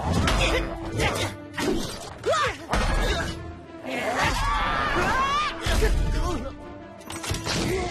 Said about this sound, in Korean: 스테고 방패 작동! 방패가 부서진 것 같아!